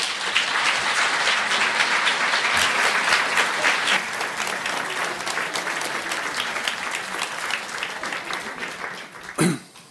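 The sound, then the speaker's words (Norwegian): Warm audience applause greets two novelists at a literary event: dense, steady clapping that continues for the full ten seconds and eases slightly near the end, where a single louder thump stands out. “Gi Nils Fredrik Dahl og Tove Nilsen en varm velkomst.”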